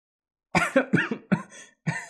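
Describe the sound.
Harsh coughing from a teenage boy who is coughing up blood after laughing loudly: several rough, closely spaced bursts, then a short pause before one final cough.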